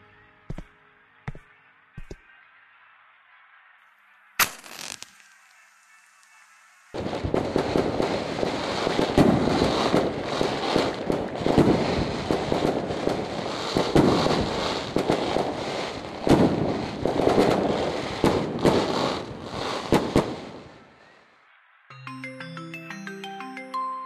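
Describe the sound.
A string of firecrackers, lit at night, erupts after a few sharp isolated pops and a brief hiss into a dense, rapid crackling barrage that rattles on for about thirteen seconds before cutting off, then short tonal sounds follow.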